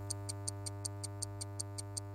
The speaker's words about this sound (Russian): Скорее, скорее, скорее. Время тикает.